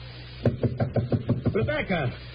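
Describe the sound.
A series of sharp, evenly spaced knocks on a door rap out in a quick run, then a man's voice begins speaking.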